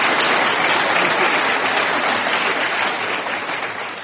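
Sustained applause from the audience welcoming Senator Dianne Feinstein at the Commonwealth Club of California, a full, steady wash of clapping that thins and softens slightly toward the end.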